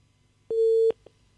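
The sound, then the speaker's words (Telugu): Telephone busy tone as a caller's line drops during a phone-in radio show: one steady mid-pitched tone holds for under half a second, followed by a brief faint blip. “Hello, welcome to hello FM అండి. Call cut అయిందండి.”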